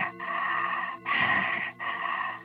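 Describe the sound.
A voice imitates the deep, labored breathing of a dying woman struggling for air, making three long, rasping, groaning breaths in slow succession, the middle one harsher and louder.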